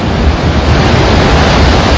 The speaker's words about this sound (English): A thunderous roar as a wall of water shoots out of the Gardner Dam. Water is now flowing through the dam spillway and headed towards Saskatoon.